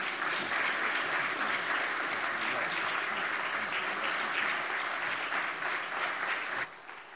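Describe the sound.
Church audience at Crossroads applauds to welcome a speaker to the pulpit, steady sustained clapping that dies away abruptly just before the end.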